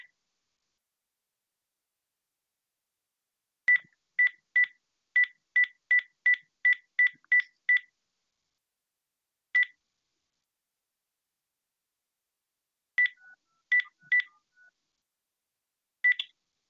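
Telephone keypad tones sound while dialing into a conference call line: a quick, even run of ten beeps, then a single beep after a pause, and a few more scattered beeps with gaps between them, all over silence.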